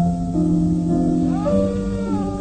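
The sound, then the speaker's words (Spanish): A wolf howl in a radio drama: a sustained, tonal cry with rich harmonics that glides upward partway through, heard without any talk. “Fue un aullido.”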